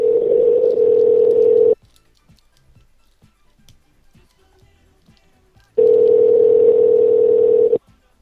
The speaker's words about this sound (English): Let's call him again.